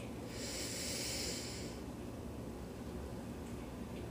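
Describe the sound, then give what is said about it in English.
A single deep inhale during a guided relaxation breathing exercise: a soft, airy hiss that builds for about a second and a half, then fades into quiet. “Take a very deep inhale along with a long hold and a long exhale.”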